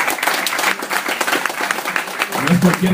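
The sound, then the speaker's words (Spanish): Applause for a comic-book café's first-anniversary celebration: dense, steady clapping runs through the whole clip, fairly loud, with voices talking over it and a low tone near the end. “¡Un fuerte aplauso por el Café Comiquero!”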